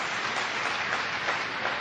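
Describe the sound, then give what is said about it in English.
A church audience applauding the men in attendance, a soft, continuous patter of many clapping hands at a steady, even level. “Do you know that that's an incredible act? That's a good thing to applaud,”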